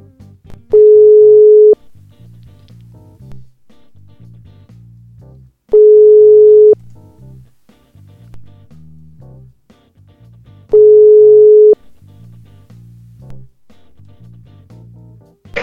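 A telephone ring tone sounds while a phone call is placed in Italy: three steady single-pitch tones, each about a second long, evenly spaced by several seconds of quieter low background sound.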